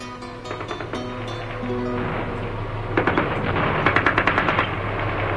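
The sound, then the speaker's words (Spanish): Rapid gunfire rattles in many sharp bursts as fighting breaks out during an armed uprising, growing denser and louder in the second half over a steady low droning background. “Los primeros disparos y la explosión de las primeras granadas sumieron a Teresa en tal estado de terror”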